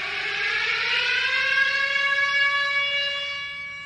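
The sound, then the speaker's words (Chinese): An Israeli rocket warning siren wails during Hamas rocket fire, a loud, sustained civil defense tone that climbs slightly in pitch at first and then holds steady, easing off a little at the end. “只有15秒钟就必须找到他们亲人并跑向防空洞。每当哈马斯发射火箭弹时，在学校里的孩子、工作中的成年人和以色列各地的家庭都会听到这种声音。”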